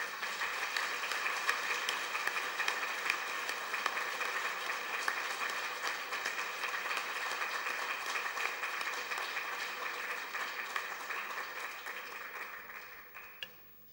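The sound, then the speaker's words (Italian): Audience applause following a priest's talk: dense, steady clapping from many hands that holds at an even level for the whole stretch, then tails off quickly at the very end. “Questo battimano è doveroso alla esposizione così lucida e toccante di Padre Riccardo, dice il nostro grazie dal profondo del cuore.”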